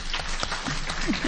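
Audience applause at a meeting, a short, dense burst of many hands clapping together, steady and fairly loud for about a second.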